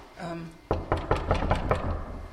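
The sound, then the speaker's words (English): Knuckles rap six quick, evenly spaced times on an office door in a corridor, each knock sharp and distinct, after a brief voice at the start. “I'm going to knock on the door and just see if there's anyone here today.”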